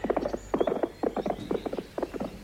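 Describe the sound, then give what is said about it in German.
Hoofbeats of two horses being ridden, a woman and a man on horseback: brisk, uneven clip-clop of many hoof strikes in loose clusters, fairly loud and with no talking. “Eine Frau und ein Mann zu Pferde.”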